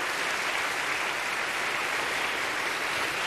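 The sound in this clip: An audience applauds to welcome a speaker onto the stage. Steady, dense clapping stays at an even level for the whole stretch, with no voices over it.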